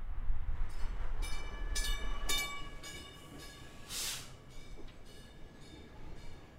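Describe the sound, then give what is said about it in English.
A South Shore Line commuter train pulling into a station in East Chicago, Indiana: a steady rumbling hiss with sustained high-pitched squealing tones and a few short, sharp bursts. “And that is the sound of a train, more specifically the Northern Indiana Commuter Transportation District's South Shore Line pulling into the station in East Chicago.”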